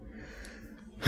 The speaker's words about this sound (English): Why you take your breath before we even mention it?